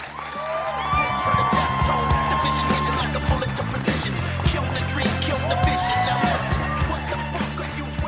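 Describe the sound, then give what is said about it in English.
A studio audience applauds and cheers after a live rock band's performance: a dense, continuous roar with whoops and whistles rising over it, holding at steady loudness throughout. “Give it up for Tom Morello and Chuck D, Prophets of Rage.”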